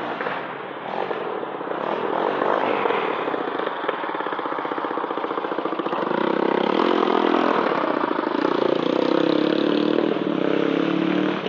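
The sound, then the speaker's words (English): An ATV engine runs in the middle of a street with a loud, continuous, rough mid-pitched drone that grows somewhat louder and fuller partway through. “for an ATV ride here in the middle of the uh, street.”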